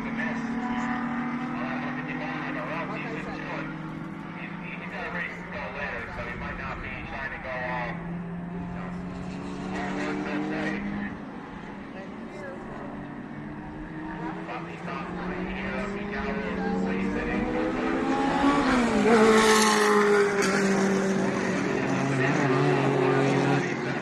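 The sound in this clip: Cars in a motor race: engines drone and whine without a break, their pitch sweeping up and down as they pass, growing louder and higher near the end.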